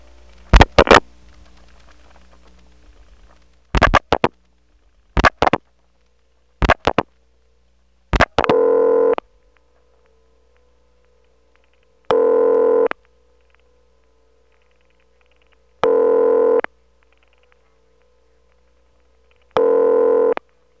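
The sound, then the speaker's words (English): Ringing signal of a 701 PBX telephone exchange reached over dialed switching equipment. A few short clicks and bursts open the call, then four equal, steady ring bursts sound at even intervals with silence between them. “That is one of two types of ring almost exclusively found in 701 PBXs.”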